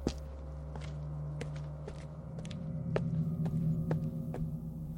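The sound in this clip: Footsteps of someone walking through a house to the kitchen: many soft, evenly paced steps over a steady low humming drone.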